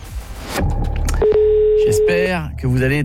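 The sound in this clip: A steady telephone tone sounds during a radio call-in game, held for about a second at a single even pitch, with voices speaking before and after it.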